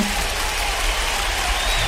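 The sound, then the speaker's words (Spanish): Applause for the host of a morning radio show comes as a continuous, even wash of clapping that holds at a constant level. “Nada más, un aplauso.”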